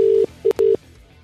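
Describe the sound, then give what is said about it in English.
Telephone number being dialled: a quick run of short, steady, mid-pitched beeps broken by two sharp clicks, then a low, quiet hum. “Let's start dialing the number,”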